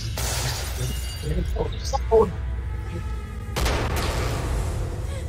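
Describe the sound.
Gunfire from a Star Wars video game, with sharp shattering and breaking bursts mixed into busy game noise, as people talk throughout.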